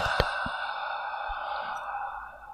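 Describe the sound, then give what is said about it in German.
Soft breathing close into a microphone makes a steady, airy hiss, with a few faint low thumps and a slight fade at the end. “Ich atme wieder leise ins Mikro.”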